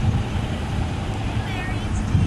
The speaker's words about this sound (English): I'll wait to cross the street so this traffic clears up a little.